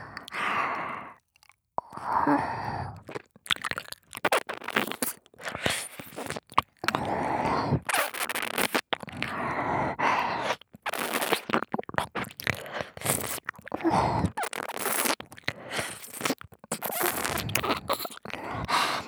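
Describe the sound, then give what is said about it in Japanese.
Close ear-cleaning scrapes and scratches come in many irregular bursts of rustling and crunching friction, separated by brief silences and mixed with soft, breathy sighs. “ご主人様の耳掃除気持ちいい。”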